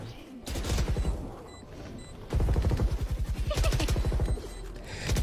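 Rapid automatic gunfire rattles in a video game, with dense bursts of shots broken by brief pauses and a long, loud, evenly pulsing volley in the second half.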